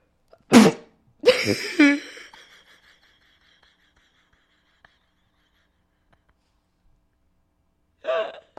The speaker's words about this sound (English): apparently I'm allergic to it. It smells so damn good. I'm sneezing.